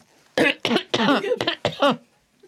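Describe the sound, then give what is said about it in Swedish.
A fit of irritating, tickly coughing: five dry, hacking bursts in quick succession, loud and sharp against near silence, with a short gap before the last two. “rethostan trängde sig på”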